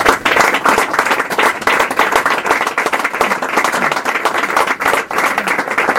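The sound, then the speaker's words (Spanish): A modest audience at a book presentation claps for about six seconds. Many individual claps stand out within a brisk, uneven patter that stays fairly loud from start to finish. “Entonces, un aplauso para él.”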